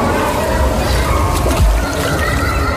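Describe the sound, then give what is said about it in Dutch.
A dive into water makes a loud, continuous splash and slosh of churning water, heard under people talking. “eerste duik zonder op zijn buik te landen”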